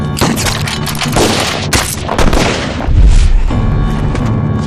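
Gunfire erupts in a tense armed standoff between soldiers and a security unit: a dense, loud, continuous barrage of overlapping shots and booms with no clear gaps between bursts.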